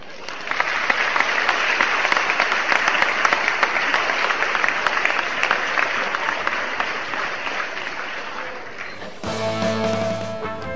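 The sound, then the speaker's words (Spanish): Crowd applause for a staged scene in which Italians forgive a man, a steady, dense wash of clapping for about nine seconds before music cuts in. “Todos los italianos aplaudieron y lo perdonaron.”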